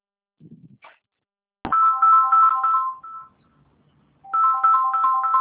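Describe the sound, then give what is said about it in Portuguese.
Mobile phone ringtone for an incoming call: a loud, bright electronic melody in two bursts separated by a short gap, with a few faint, brief sounds before the first burst and no talking. “Só um minutinho, deixa eu só atender aqui uma ligação.”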